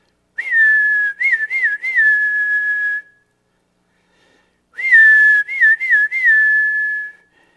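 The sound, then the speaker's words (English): A man whistles to call a horse while holding a feed bucket. Two loud whistled phrases are separated by a pause, and each opens with a few quick warbling notes before settling into a long held tone. “He walks out there, and he grabs his feed bucket, and he rattles it a little bit, and he just whistles.”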